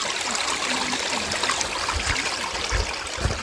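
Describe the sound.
A small, clear stream near Kannakkarai flows with a steady, even rush of water and a light trickling texture throughout, with no voices.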